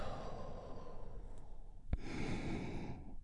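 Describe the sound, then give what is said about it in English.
A deep breath is released as a long, soft, breathy exhale, quiet and unhurried, with a small click just before it. “where we get to take a big, deep, healing breath all together. Here we go. And release.”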